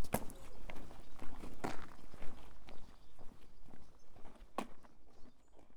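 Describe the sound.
Footsteps on a village walk past the busy village store, a series of soft steps with a few sharper, louder footfalls over a steady outdoor background.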